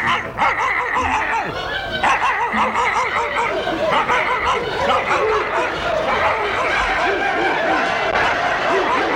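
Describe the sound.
A dog barks and yips over and over for the whole stretch, loud and busy, the sharp calls laid over a dense, steady layer of other sound.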